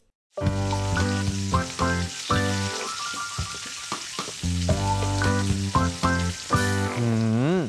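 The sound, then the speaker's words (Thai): Food frying during home cooking: a constant sizzling hiss that runs under loud tonal music. “มาทำอาหารเนี่ยกลิ่นฟุ้งไปทั่วบ้านเลย”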